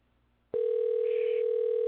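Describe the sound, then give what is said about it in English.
A telephone tone on a computer chat call, a steady electronic pitch that switches on abruptly after a brief quiet moment and holds loud and unbroken to the end. “Yeah, we got that phone, though. Pick up the motherfucking phone.”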